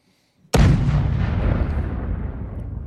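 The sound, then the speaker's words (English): A bomb explosion sound effect bursts after a brief near-silence, a single sudden heavy blast followed by a long, deep rumbling tail that slowly fades. “Hold on, I'm trying to get the bomb thing going on here. Ready?”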